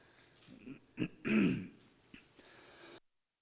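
A preacher clears his throat during a church service: rough, guttural rasps with a long, loud scrape in the middle and a few smaller catches before and after.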